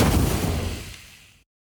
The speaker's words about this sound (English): The smoke bomb seems a bit much.